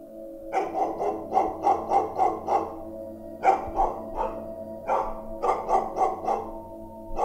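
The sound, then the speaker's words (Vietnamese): A neighbour's dog barks in fits from outside the yard: three bouts of rapid, sharp barks separated by short pauses, over a steady low hum, with no talk. “tiếng con chó nhà hàng xóm nó sủa nhấm nha nhấm nhẳng sang bên này, sủa giật cục từng hồi một, lạ lắm”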